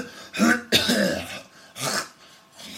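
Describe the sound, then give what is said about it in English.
Someone clears their throat to bring up phlegm with a few harsh, gravelly rasps in quick succession. The rasps are loud and heard alone, with no talk. “when you have phlegm you have to right, it's like all of the spit, but it's green, and it's in your throat and in your lungs”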